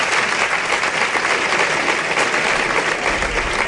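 Crowd applauding at a bullfight while matador Paco Ureña performs, a loud, unbroken roar of many hands clapping at a constant intensity.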